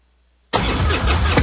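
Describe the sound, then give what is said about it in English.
An American motorcycle engine starting, a loud rumbling roar that bursts in abruptly after half a second of silence and runs steadily to the end, growing slightly louder near the close. “This is the sound of a popular American motorcycle. It's the sound of freedom, the open road, really good times.”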